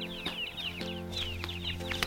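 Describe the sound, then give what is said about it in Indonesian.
A flock of many chickens clucks: short, high calls repeat in a lively, irregular rhythm at a moderate level over a steady low background tone. “Encik Walek memelihara ayam yang banyak.”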